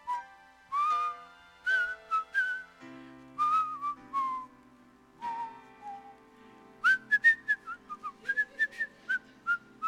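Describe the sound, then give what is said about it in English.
A person whistles a cheerful tune alone, with many short, clear melodic notes in bouncing phrases and no talking. “And I'm there whistling away”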